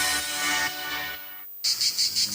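Crickets chirp, the sound of summer, in a few quick, high, pulsing bursts that start after a brief silence and repeat in a regular rhythm.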